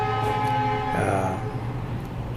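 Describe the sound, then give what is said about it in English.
A train horn sounds from a railway track in India, a sustained, droning blast that holds steady through the whole clip and shifts in tone partway through. “Sorry for the noise behind. We have a railway track not far from here, and in India, you know, they like blowing horns.”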